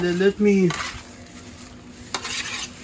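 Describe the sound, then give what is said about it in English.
Food seasoned with seasoned salt is stirred on a hot grill. Utensil scrapes and a couple of sharp clinks sit over a soft, steady sizzle. “Let me mix it up a little bit.”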